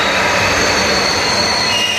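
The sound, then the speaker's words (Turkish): Domestically built electric passenger train, capable of 160 km/h, running as a steady, loud rolling rumble with a thin high-pitched whine sustained throughout. “Saatte 160 kilometre hıza ulaşabilen yerli elektrikli trenler üstün teknolojisiyle de göz dolduruyor.”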